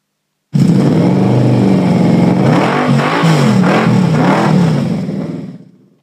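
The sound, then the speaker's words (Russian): A motorbike engine starts and speeds across the desert. Its loud, buzzing roar surges up and down in pitch several times, then fades away. “завел двигатель и, петляя, понесся по пустыне.”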